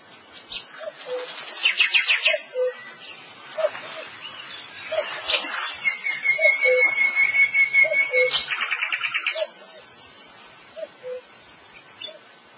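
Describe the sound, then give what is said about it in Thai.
Many birds call loudly in a forest: repeated short chirps and bright trills overlap in a busy, steady chorus with no talking. “ปักษาชาติร้องระงมสนั่นไพร”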